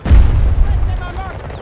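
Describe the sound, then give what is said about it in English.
Gunfire from a video game gun: a loud, booming blast at the start, followed by a rumbling tail that fades, with a voice briefly audible near the end. “Oh, this gun takes forever to reload.”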